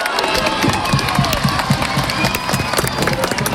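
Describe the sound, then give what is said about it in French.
About 4,500 football supporters of Le Puy Foot cheer at Le Puy-en-Velay, a loud, dense roar of shouting crowd voices and applause that holds steady throughout. “Bravo le Puy Foot, David Valverde au milieu des 4500 supporters présents hier au Puy-en-Velay”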